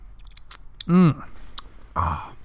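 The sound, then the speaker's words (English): Someone chews a slice of iced vanilla sponge cake, making soft, moist mouth sounds. A brief vocal sound and quiet talk are mixed in. “Oh, I didn't see you there, sorry. I was just enjoying this slice of cake.”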